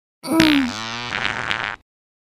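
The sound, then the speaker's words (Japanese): One long, loud fart in an intimate roleplay: a buzzy, reedy blast that opens with a sharp, slightly falling tone and then sputters on steadily for about a second and a half before stopping abruptly. “このおなら穴からブーブーおならこいてるのよ。ほら、もう一発。”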